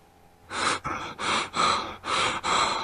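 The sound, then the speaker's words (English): Scared male breathing comes as a rapid run of loud, ragged breaths, each a harsh burst of air with brief gaps between, alone with no talk. “Scared male breathing?”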